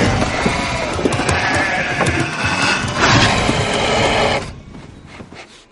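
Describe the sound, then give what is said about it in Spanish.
Frightened sheep bleat and stir in a stable as a wolf gets inside, a dense, agitated clamour of overlapping cries that runs steadily, then breaks off abruptly near the end, leaving only faint sound. “Otros le siguen y las ovejas se agitan aterradas.”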